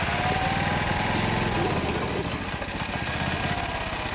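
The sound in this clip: A three-wheeled moped engine runs with a loud, steady, throbbing buzz that continues without a break.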